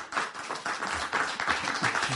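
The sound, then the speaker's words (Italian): Audience applause for a guest: a steady wash of many overlapping hand claps at a moderate level, continuous from start to finish. “Un applauso per Manu.”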